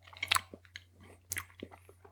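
Chewing on eucalyptus throat lozenges: two sharp crunching bites stand out, with softer wet mouth clicks and smaller crunches between, quiet over a low steady hum.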